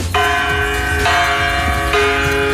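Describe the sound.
A bronze bell in an art installation at the Venice Biennale, rung from inside by a performer acting as its clapper, strikes three times at a steady pace, each loud stroke ringing with bright overtones that hang until the next.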